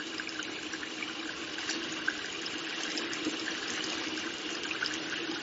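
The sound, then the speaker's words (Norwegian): Tap water runs steadily while hands and forearms are rinsed up to the elbows. It is a continuous, even splashing hiss that stays at a constant level throughout, with no speech. “Så skyller jeg først hendene.”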